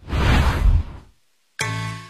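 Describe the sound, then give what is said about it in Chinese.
A radio-drama sound effect of an arrow shot from a bow: a loud rushing whoosh fades out, then after a brief silence a sharp, ringing tonal strike sounds and sustains. “陈饶孜带着徒弟出场，伸手接过徒弟递过来的弓箭，摆开姿势仔细的瞄准，徒弟在旁边观看。”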